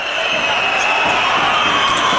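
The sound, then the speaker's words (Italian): A basketball is dribbled repeatedly on the court during a professional game, as a player pushes the ball past half court. The quick bounces sit under a steady wash of loud crowd noise. “su di lui Ferrari, supera la metà campo Parks, in palleggio insistito per attaccare Ferrari”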